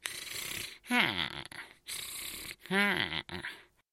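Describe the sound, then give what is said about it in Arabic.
Snoring and mumbling of a giant sleeping clown, voiced by a person imitating the sound: two drawn-out, throaty snores whose pitch slides downward, set between breathy, noisy stretches of inhaling and mutter. “كان جانجلز يشخر ويتمتم أثناء نومه”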